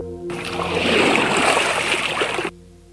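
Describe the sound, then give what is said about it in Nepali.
Water from a glass spilling onto the ground in a home courtyard and flowing: a hissing, splashing gush lasting about two seconds, swelling then stopping abruptly, over a faint steady tonal background. “अचानक गिलासको पानी भुइँमा पोखिन्छ र बग्न थाल्छ।”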